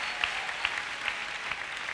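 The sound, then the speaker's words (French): A church audience applauding in praise: steady, dense applause throughout, with a regular beat of louder, sharper claps roughly every half second standing out above the wash of hands. “On acclame le Seigneur.”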